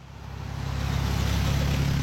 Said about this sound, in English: Cars zoom past candidates and supporters as they wave signs and sip coffee in the rain at the Juneau-Douglas Bridge intersection Tuesday morning.